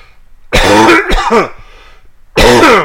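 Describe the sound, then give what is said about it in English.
A person turned away from the microphone clears their throat and coughs in three loud, rough bursts: two close together, then one more after a short quiet gap. “I have to cough, and I don't want to do that in the microphone.”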